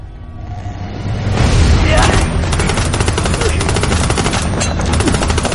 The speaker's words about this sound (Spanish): En el tanque, Jan pelea con un soldado. Monpo trata de no desfallecer. Jan continúa disparando a los norcoreanos que intentan subir al tanque.